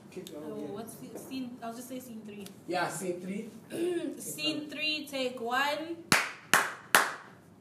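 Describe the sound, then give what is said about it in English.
Three sharp, loud hand claps on a film set, struck hard on cue as a slate for a take, coming in quick succession after a stretch of people talking. “can you please clap? 1, 2, 3. Very hard”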